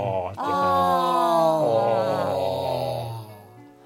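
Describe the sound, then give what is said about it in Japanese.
A person yawns: one long, voiced, groaning exhalation lasting about three seconds, starting abruptly and slowly dropping in pitch before fading out, with no other sounds. “あくびをしてみましょう。”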